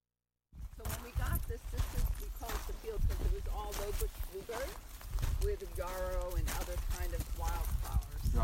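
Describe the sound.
Footsteps of people walking outdoors through gardens, a steady run of many crisp, clopping steps throughout, with voices talking over them.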